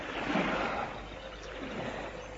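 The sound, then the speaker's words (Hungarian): River waves wash and lap with a soft, continuous rushing hiss, fairly faint, swelling slightly near the start and then settling into an even murmur. “Csak nézem a hullámokat.”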